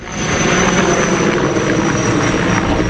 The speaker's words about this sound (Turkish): Alev savaşçıları, 2 uçak, 4 helikopter, çok sayıda iş makinesi ve arazözle yangınlara müdahale etti.